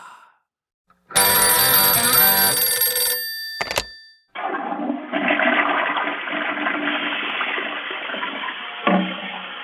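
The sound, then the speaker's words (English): A toilet flushing: a loud rushing, gurgling roar of water that runs for about five seconds and then tapers off. A bright, ringing electronic tone and a short clatter come before it. “Anybody hear that? That's the sound of the toilet flushing.”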